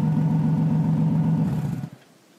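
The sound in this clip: A car engine rumbles low and steady as the car makes a quick turn-around to get back on the highway. The engine noise then cuts off sharply near the end.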